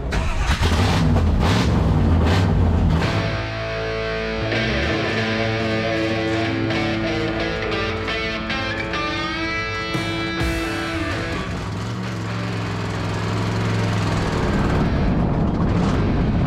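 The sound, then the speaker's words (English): A historic race car engine cranks and fires at the Historics vintage racing event at Pacific Raceways, then settles into a loud, rough, continuous idle with a brief rising rev partway through. “Power on, fuel on, AccuSump on, then fire in the hole.”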